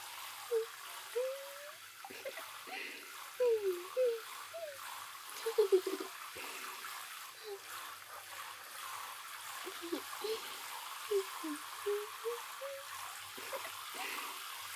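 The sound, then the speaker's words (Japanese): Running water rinses something, a continuous soft hiss of flow broken by irregular splashy bursts through the whole stretch. “流しますよ。 ザブザブザブザブ、ジャバジャバジャバジャバ。”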